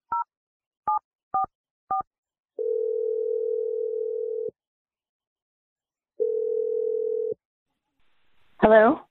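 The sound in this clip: A telephone number is dialed, with four short, evenly pitched keypad beeps followed by two long, steady tones separated by silence. A brief voice comes in at the very end.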